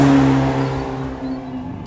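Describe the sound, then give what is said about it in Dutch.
A car's engine drones steadily as it drives off, with a loud, even hum whose level eases slightly after the start. No voices are heard. “Even de Ferrari hier pakken.”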